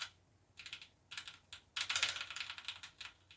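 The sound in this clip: Keys pressed on a new RGB computer keyboard, starting as a few short bursts of clicking and then running into a longer, denser clatter of typing, fairly quiet and with no talk.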